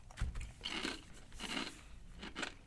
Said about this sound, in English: it's a very edible chip. Yeah. I'm going to go two thumbs on this one. Good chip consistency, good crunch.